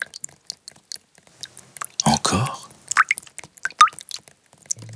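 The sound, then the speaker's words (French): Rain drips and paws splash through puddles: scattered light drips and small squishy plops, with a louder wet splash burst about halfway through. “La pluie, les flaques, ses pattes. Oh, tout fait du bruit.”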